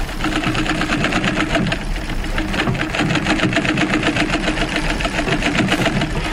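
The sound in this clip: Sewing machine running steadily, its rapid, even stitching rhythm loud and continuous, with a mechanical whirring hum beneath the fast repeated needle strokes.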